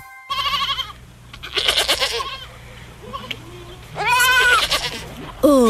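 Goat bleating, a white nanny goat with a newborn kid, giving several loud, wavering, harmonic bleats separated by short pauses, with the last one rising sharply at the end.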